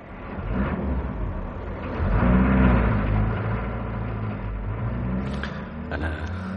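A luxury car drives off, its engine rumbling low and swelling louder early on before settling into a steady drone.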